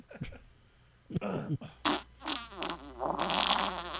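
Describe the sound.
A fart in the bath comes out as a few short, rough bursts followed by a longer bubbling sputter. It is quiet and irregular, with no clear speech.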